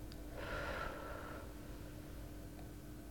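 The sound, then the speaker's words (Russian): One soft, slow breath lasting about a second, taken during a guided slow breathing exercise. It sounds faint and airy over a steady low hum. “Выдох. Вдох. И выдох.”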